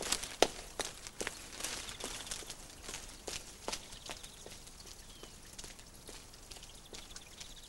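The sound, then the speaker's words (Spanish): A child's footsteps sound while walking under arcades: many light, sharp taps fall in a fairly regular walking rhythm, a little stronger at first and softer toward the end, with no talk. “el niño camina por unos soportales con el traje nuevo al hombro y camisas en una mano.”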